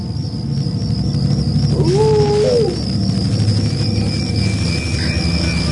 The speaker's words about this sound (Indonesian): Sesekali ku dengar dia seperti melolong.